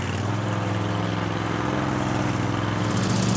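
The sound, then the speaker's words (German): Steady engine drone of a Brielmeier double-blade mowing machine running on spiked rollers while cutting grass, a loud, unbroken mechanical hum with low throbbing tones that holds level throughout, with no voices. “Mit einem Doppelmesser wird das Gras geschnitten. Die Maschine fährt auf Stachelwalzen und schont den Boden.”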